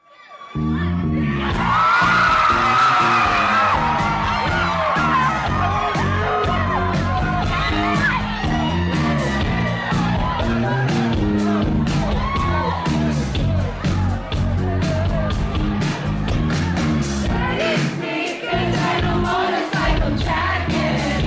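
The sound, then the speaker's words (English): A crowd cheers, whoops and yells at a bass break during a live DJ show, a loud, sustained roar riding over pounding, bass-heavy music. “That moment is so amazing. That audience are really happy about that bass, that bass break.”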